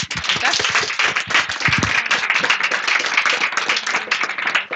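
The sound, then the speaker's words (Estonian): Audience applause closes a presentation at a public event where new civic initiatives pitch their plans: dense, steady clapping from many hands, loud and unbroken for the whole stretch. “aplaus veel kord”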